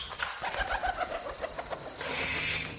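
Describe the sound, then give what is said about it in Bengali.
An owl calls overhead in pre-dawn darkness with a soft, repeated cooing hoot that breaks off midway. A brief burst of fluttering wings follows, all fairly quiet. “হঠাৎ আমাদের মাথার উপর দিয়ে একটা পেঁচা ডাকতে ডাকতে কেমন যেন মাঝপথে ভয় পেয়ে থেমে গিয়ে ডানা ছটপটিয়ে উঠল।”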